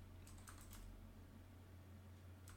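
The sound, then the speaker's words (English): Typing on a computer keyboard: a quick burst of faint, light key taps, a pause of steady background hum, then a few more taps at the end. “I've typed in who I think you're going to say.”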